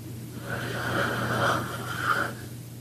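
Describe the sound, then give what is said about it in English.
A deep breath taken during a guided breathing exercise: one long, soft, airy inhalation lasting about two seconds, heard alone with no talk. “Take a breath.”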